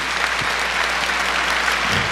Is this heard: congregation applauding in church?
yes